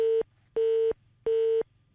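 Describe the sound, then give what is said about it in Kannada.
A telephone disconnected tone after a dropped call: three identical steady, mid-pitched beeps, evenly spaced with short silent gaps, clear and fairly loud. “ಕರೆ ಕಡಿತಗೊಂಡಿದೆ.”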